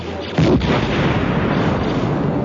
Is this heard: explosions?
yes